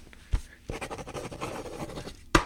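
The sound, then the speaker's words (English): Pen scratching on paper as something is written down, a busy run of quick scratchy strokes for about a second and a half, with a sharp tap just before and another right after. “I'm going to write this write this one down”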